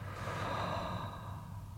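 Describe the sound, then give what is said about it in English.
A deep, slow breath during a guided meditation: one soft, airy rush of breath lasts nearly two seconds and fades slightly at the end, with no talk. “I invite you to join me in three more breaths. So breathing in and out”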